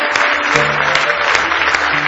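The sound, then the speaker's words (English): A church audience claps in praise during a worship service, a dense, steady burst of applause from many hands. “Give Him another big hand clap of praise if you love Him.”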